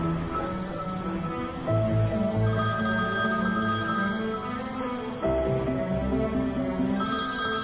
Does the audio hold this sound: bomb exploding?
no